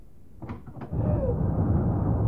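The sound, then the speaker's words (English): A door is opened on a snowy night: a few soft clunks from the latch and door, then a loud, steady rush of wind that continues to the end. “Easy now, opening that door. We don't want the snow blowing in.”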